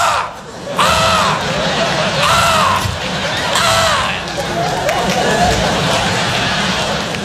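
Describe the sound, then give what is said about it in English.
A child imitates crows cawing, repeating a series of loud, arching caw calls over a noisy, breathy background. “you gotta come see the crows outside my window. Because they go,”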